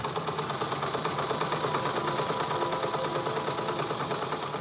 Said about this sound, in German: Ich nähe jetzt die Lavendelkissen für die Gastgeschenke.